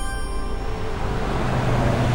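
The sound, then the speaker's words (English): Traffic noise outside a used car dealership in Detroit: a continuous, fairly loud roadway rumble with no voices and no distinct individual events. “I've just arrived at a used car dealership in Detroit.”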